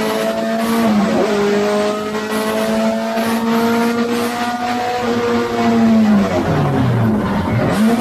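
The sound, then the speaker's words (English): A race car engine on track roars loudly and continuously, its pitch dropping early on and then dipping and wavering again near the end as the driver misses a gear shift. “I missed the gear there. Missed the gear. Gotta get used to that transmission.”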